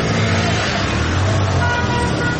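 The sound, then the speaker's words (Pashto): Cars idle and pass near a security checkpoint in the Amir Mohammad Khan Kala area of Ghazni city, a continuous dense rumble of engines and road noise, steady and loud throughout without distinct separate events. “د غزنی ښار امیر محمد خان کلا سیمه کې تلاشی مرکز ته چیرمه یو شمیر موټران ولاړ او ډیرای نور لا تلاشی کولو څخه وروسته تیریږي”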